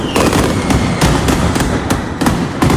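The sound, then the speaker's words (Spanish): Mascletà firecrackers at the first Fogueres festival display in Plaza de los Luceros, Alicante, with 75 kilos of gunpowder and over 6,000 aerial thunders, fire as a loud, relentless barrage of overlapping bangs and cracks with no pause. “Estamos de fiesta en Alicante. Primera mascleta de fogueres que se ha inundado de pólvora la Plaza de los Luceros. 75 kilos se han disparado y se han utilizado más de 6.000 truenos aéreos.”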